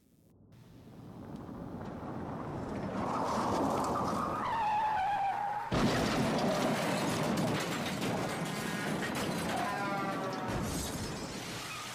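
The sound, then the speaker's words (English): A limousine arrives and drives away, heard as a steady, loud engine and road rumble that swells up from quiet and holds throughout, with whining tones sliding in pitch partway through. “The limo shows up in a few minutes, and they drive away in silence.”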